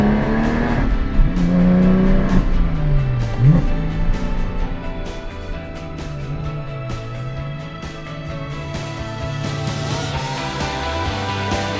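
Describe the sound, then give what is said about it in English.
A Porsche 991 GT3 Touring sports car drives the Mount Panorama circuit at around 60 km/h. Its engine gives a continuous, fairly loud drone, the pitch dipping and climbing early on, then settling into a steadier, slightly quieter hum. “I just think one more run around Mount Panorama, because even at 60 kilometres an hour, this is exactly the right place for this Porsche GT3 Touring.”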